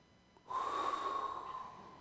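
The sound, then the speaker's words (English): Someone breathes into another person's ear: a single soft, airy exhale begins after a brief quiet moment and lasts about a second and a half. The hiss is faint and fades slightly at the end. “Just breathe right in their ear.”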